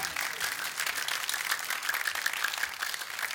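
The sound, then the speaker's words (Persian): An audience clapping at a religious gathering: a dense, sustained wash of applause at an even level throughout. “بزن دست قشنگو.”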